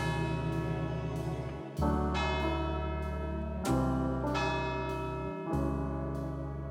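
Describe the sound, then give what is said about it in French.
Church bell tower ringing six o'clock: resonant metallic tolls with rich, shimmering overtones, struck several times in a slow, steady rhythm. Each strike's hum lingers and overlaps the next, with no talk. “J'entends le clocher de l'église sonner 18 heures.”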